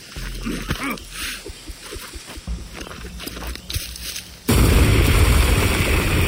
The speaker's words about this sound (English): I lit the last stick of dynamite and heaved it into the dark.